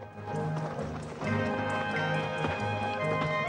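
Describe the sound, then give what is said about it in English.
Ridden horses clip-clop along a trail that winds up a small hill, with steady, continuous hoofbeats that stay fairly loud throughout. “The riders continue on their way, following the trail as it winds up a small hill.”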